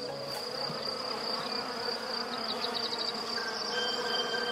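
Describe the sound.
Honeybees buzzing in a steady, dense drone that holds at an even loudness throughout, with no voices.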